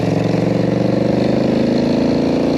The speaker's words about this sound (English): just to show you how it goes with this foot clutch jockey shift setup. First gear, second gear,